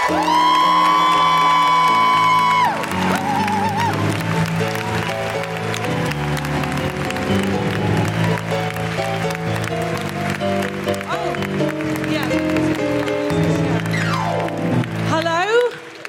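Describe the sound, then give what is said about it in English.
Audience applause and whooping at a live comedy event welcoming a comedian to the stage: a sustained wash of clapping with cheers and rising whoops, holding strong throughout before tapering off at the very end. “Put your hands together and make enormous, wonderful, welcoming, woo-hooing noises for the excellent Bridget Christie!”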